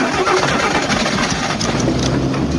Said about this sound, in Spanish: ¡Estás atorado, te digo! ¡Vas a quemar el motor!